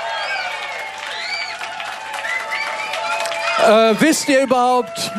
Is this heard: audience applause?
yes